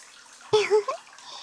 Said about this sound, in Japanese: それならこのまま頭を洗いながらマッサージしていきますね。